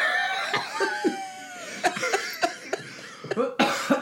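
Several sharp coughs from something caught in the throat come in irregular bursts, mixed with bits of laughter.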